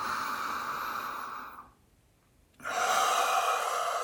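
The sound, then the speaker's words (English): A deep breath during a breathing exercise, heard as two long, airy rushes of breath separated by a short silent pause. “So we're going to inhale.”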